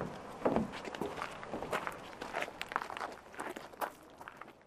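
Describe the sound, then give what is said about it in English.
Footsteps walking on a coast path, a steady run of many scuffing steps at an even walking pace, moderately faint, with no talk. “So what we're going to do now is walk back up to the coast path”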